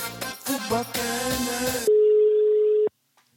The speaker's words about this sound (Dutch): Even bellen met een echte